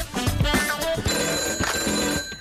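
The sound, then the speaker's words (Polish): A telephone rings with an incoming call on a call-in line for classified ads. The bright, steady electronic ring starts about halfway through and holds to the end. “I kolejny telefon.”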